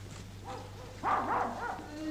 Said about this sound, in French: Et les chiens sont comme fous. Ils ne vont pas nous laisser dormir.